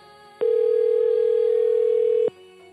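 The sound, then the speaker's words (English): A single steady telephone tone sounds while a call is being placed. The mid-pitched beep holds unbroken for about two seconds over a faint hum, then stops abruptly. “We're calling Clifton.”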